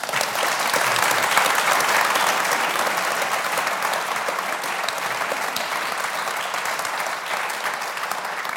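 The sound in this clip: An audience applauds to welcome a panel at a football talk event. The clapping is thick and continuous, holding evenly for about nine seconds and tapering slightly toward the close.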